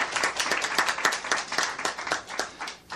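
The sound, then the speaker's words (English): Audience applause for a performer who has just recited a verse: a steady patter of many hand claps, fairly loud and uneven, easing off slightly near the end. “Bravo. There you go. Come on, give him a hand now.”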